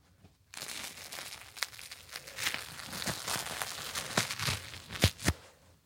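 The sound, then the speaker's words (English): A crusty, dark-baked bagel is torn apart by hand, giving a long run of dry crackles and crunchy tearing. A few sharper, louder snaps come near the end. “Just feeling the outside, it's like really nice and crusty. Okay, now I'm going to rip Shelsky's bagel.”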